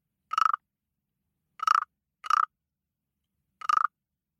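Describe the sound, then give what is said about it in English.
Frog croaking: four separate rattling croaks, each made of rapid pulses, loud and clear against silence, with longer and shorter gaps between them. “That's the sound of a frog.”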